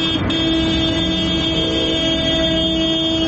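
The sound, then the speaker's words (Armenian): Loud car horns honk continuously during an opposition protest motorcade through Yerevan. Several steady horn tones overlap and blare without pause over the rumble of traffic. “Ընդդիմության աննազանդության ակցիաներն այսօր ավտոերթով մեկնարկեցին։”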